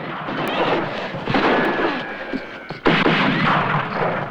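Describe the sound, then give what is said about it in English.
Gunfire in a shootout with captors among rocks: a few sharp shots crack over a dense, rumbling din of continuous noise, with a louder burst near the end. “takes cover behind rocks and continues to bombard the captors with repeated fire”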